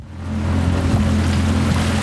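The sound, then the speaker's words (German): A fisherman's motorboat heads back to the shore of the Laacher See, a lake, its engine a steady low droning hum under a broad wash of water and air noise, holding an even level for about two seconds. “Der Fischer fährt mit seinem Boot zurück ans Ufer des Lacher Sees.”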